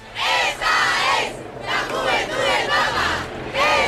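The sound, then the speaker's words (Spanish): A large crowd fills a street in central Madrid during a mass event, many voices shouting and chanting together in loud, surging bursts with brief dips between them. “Es el evento que se prevé más masivo en la calle, y lo primero que queremos escuchar es cómo suena esa calle, cómo está ahora mismo el centro de Madrid.”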